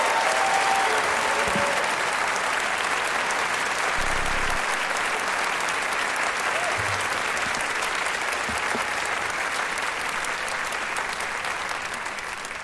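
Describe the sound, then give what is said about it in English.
Audience applause in a theater, a dense, steady wash of many hands clapping that carries on without a break and eases slightly toward the end. “Now, please hold your applause in the theater until everybody has been seated.”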